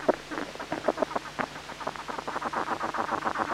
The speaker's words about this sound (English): This quite loud vibration, this remarkable sort of drumming, rasping sound. And that seems to further stimulate the ants to feed this caterpillar